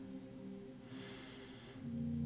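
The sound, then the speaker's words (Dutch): A slow, deep inhalation, soft and airy, rising and fading over about a second against a low, steady, sustained tone in the background. “Sluit je ogen. En adem diep in”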